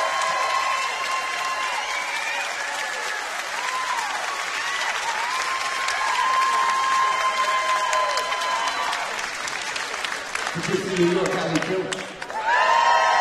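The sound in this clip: A New York audience applauds and cheers as a performer takes the stage, with continuous clapping and scattered whoops before a man starts speaking near the end.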